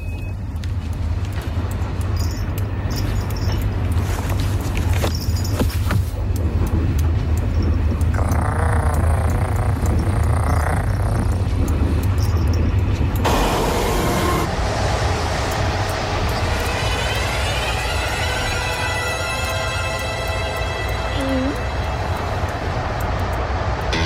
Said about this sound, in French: je suis dans le train, tu m'entends?